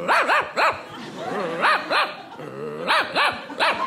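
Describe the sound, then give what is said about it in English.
A person imitating a dog with a voice, giving a series of sharp, yelping barks in short bursts with brief pauses between groups. “I keep it up to my face, and I bark like a dog, and then I look around like I don't know where the noise came from.”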